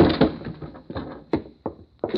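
A door in a hallway is thrown open with a few fairly loud, dull thumps and knocks spread over about two seconds. No voices are heard.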